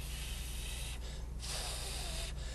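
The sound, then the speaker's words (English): Pursed-lip breathing demonstrated as taught to emphysema patients: a sustained breathy hiss of air forced out through narrowed lips, broken by brief pauses, over a low steady hum. “If you teach emphysema patient to breathe with pursed lips, because when you do this,”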